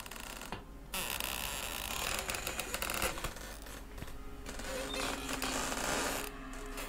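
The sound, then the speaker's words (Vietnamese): An old door creaking open in an old room, a drawn-out grating creak that rises from a steady, noisy background, with no voices. “Có lẽ là vì căn phòng đã cũ, tiếng cửa kêu lên cót két nghe đến giận cả người.”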